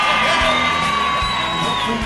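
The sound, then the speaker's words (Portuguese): A recorded studio audience cheers and whoops, a continuous, loud crowd noise with shouts and whistle-like cries throughout. “Como é bom sempre ter uma plateia animada, sempre uma plateia alegre. Olha, quero guardar para sempre o calor desses aplausos.”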